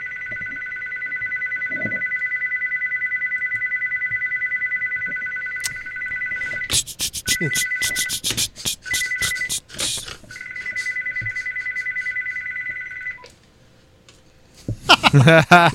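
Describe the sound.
A loud electronic telephone ringtone plays as a steady, high, warbling tone. People talk over a pause in the ringing, then it resumes briefly and stops before more voices follow.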